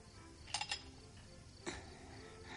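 A spoon clinks against a drinking glass while fishing out a ring during a Christmas toast. A quick cluster of bright, light clinks is followed a moment later by one more.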